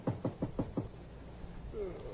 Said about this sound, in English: as someone knocks on the door